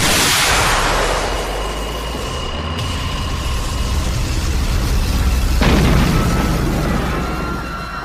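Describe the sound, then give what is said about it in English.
A magic spell blast from a fantasy battle erupts as a loud, broad roaring burst that hisses and rumbles on. A second sharp blast strikes about two-thirds of the way through, trailing into a sustained rumbling tail. “did that spell blast just fire out of your eye socket?”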